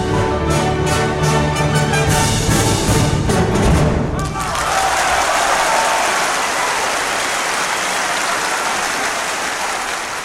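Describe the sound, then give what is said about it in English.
Audience applause after a piano concerto performance bursts in as a dense, loud wash of clapping right after the closing orchestral chords, then carries on steadily to the end. “The audience reaction is pretty spectacular as well.”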